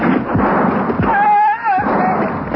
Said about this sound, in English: Halt! Stay where you are or I'll fire! They're shooting! Let them have it!